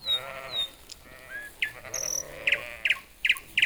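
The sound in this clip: Goats in a herd bleat in a few short, nasal calls. The wavering cries rise and fall at moderate loudness, with sharper high bleats scattered among them.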